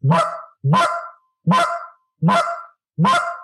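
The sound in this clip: Five short low clucks blown on a goose call, each an abrupt, loud honking note, evenly spaced with clear gaps of silence between them.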